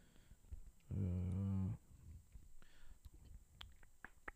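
A loud, drawn-out burp lasting under a second, low and croaking with a rich buzzing tone, standing out from faint background noise.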